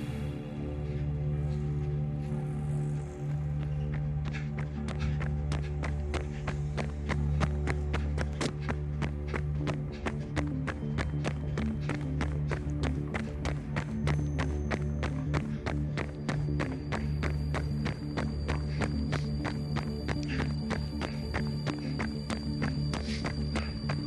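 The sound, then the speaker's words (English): Footsteps of people on a night run, many steady, evenly spaced strides tapping on without a break over a constant low hum. “I love a night run. Yeah, me too. All right then, let's get started. We're about 1K up to the meet point, so a nice distance to warm up. Let's go.”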